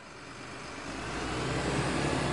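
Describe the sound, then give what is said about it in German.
Engine and road noise of a coach bus carrying a school class on a trip, a steady mid-range drone that grows slightly louder over the short stretch, with no voices. “Die Klasse 4a fährt auf Klassenfahrt nach Italien. Im Reisebus.”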